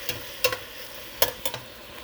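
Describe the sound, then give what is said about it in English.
Onion, garlic and tomato sauté together in a pan: a soft, steady sizzle runs throughout, broken by several sharp scraping stirs that come in quick pairs and single strokes. “the onion, the garlic, the tomato. I'm sauteing all of that together.”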